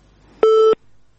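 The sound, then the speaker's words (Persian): A busy signal sounds after a listener's call-in phone call drops: a single steady mid-pitched tone, loud and clean, lasting about a third of a second. “بلی خب، تماس شنوندی ما قطع شد.”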